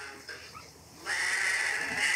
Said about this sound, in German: Und das sind weiße Lämmer, ne?